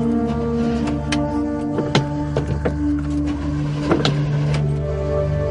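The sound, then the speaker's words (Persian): A car engine runs as a steady low drone with hum-like tones, broken by a few sharp clicks and knocks; no clear rise in pitch. “گاز بده، گاز بده.”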